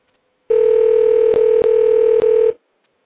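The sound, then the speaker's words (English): A steady telephone dial tone sounds while a call is being dialled out. It holds one flat, mid-pitched buzzing note for about two seconds, is briefly broken three times, and then cuts off. “we are dialing out. Let's see what happens here.”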